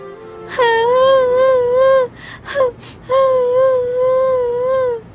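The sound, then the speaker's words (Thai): A woman cries in long, wavering, high-pitched wails. Two sustained sobbing cries are broken by a brief stretch of short gasping breaths, and each wail holds loud and steady before cutting off. “น้องหญิง เจ้าเป็นอะไร ทำไมถึงมาร้องไห้อยู่แบบนี้”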